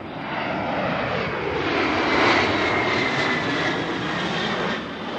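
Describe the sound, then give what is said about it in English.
Jet roar of an A-10 attack aircraft on final approach to land at Davis-Monthan Air Force Base in Tucson, Arizona, heard from beneath the approach path: a loud, broad, rushing roar that swells slightly midway and then eases over about five seconds. “It's home to the A-10 attack aircraft. One of them is coming in for a landing.”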